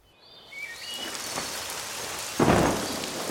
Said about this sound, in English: Oh no! It's raining! We're getting wet!